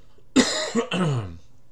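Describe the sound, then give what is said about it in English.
Throat clearing to get rid of a morning tickle in the throat: a short series of rough, voiced hacks, the last one longer, with no talk. “Got just a little bit of tickle in my throat this morning, and so hopefully we can get that out before we get started into our Bible study today.”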